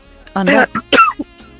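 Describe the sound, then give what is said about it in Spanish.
A person coughing in a few short, throaty bursts that sound voiced and fairly loud, coming close together within about a second. “A mí me da la tos.”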